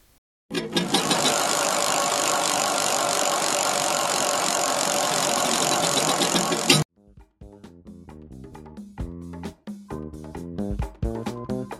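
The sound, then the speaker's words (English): A prize wheel spins with a dense, rapid rattling clatter that holds steady for about six seconds and then stops abruptly, followed by a short musical passage. “All right, let's give the wheel another spin.”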